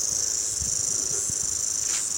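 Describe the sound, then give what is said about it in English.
Cicadas call in a loud, continuous high-pitched buzzing drone that holds steady throughout, with no voices. “I think they must stop when they crawl around, because they keep moving when they make their noise. I probably crawl around into the shade and think, oh, I got no sun. I think they're a bit stupid, cicadas are.”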